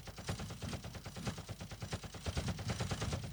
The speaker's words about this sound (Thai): ยังไม่ทันไรข้าศึกก็ระดมยิงด้วยปืนกลหนัก4ชุด